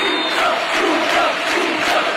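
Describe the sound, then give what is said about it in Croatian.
A football stadium crowd in Seville stands to give Luka Modrić an ovation as he comes on from the bench, a dense, continuous roar of many cheering voices, loud and steady. “svi su prepoznali kakav legendaran trenutak kad je Luka Modrić ušao u utakmicu sa klupe i cijeli stadion stao na noge. Ovo je snimka od sinoć sa stadiona.”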